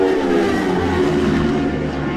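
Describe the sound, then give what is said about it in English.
Racing motorcycles pass during Isle of Man TT qualifying, a continuous loud, dense engine roar holding steady throughout. “Michael Dunlop has set a new unofficial lap record at the Isle of Man TT races during the latest qualifying session of 2026 this afternoon. Here they come!”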